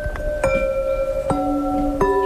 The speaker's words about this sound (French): Ce son-là, il n'y a que la porcelaine qui le donne.